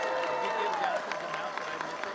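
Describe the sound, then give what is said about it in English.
Audience applause for award winners at an annual awards event in its 17th year: a dense, sustained wash of many hands clapping at steady loudness throughout, with crowd noise blended in. “Let's do one big round of applause for all of these winners.”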